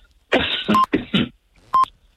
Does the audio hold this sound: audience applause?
no